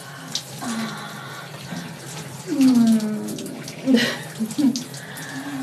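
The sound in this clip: Water runs from a tap while hands are rinsed, a steady hiss that continues throughout with a few brief splashy surges.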